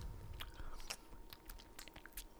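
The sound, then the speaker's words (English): Wet mouth sounds as someone moistens their lips: soft smacks and sticky clicks in a quick, irregular series, faint and close, with no talking. “So I like to moisten my lips first.”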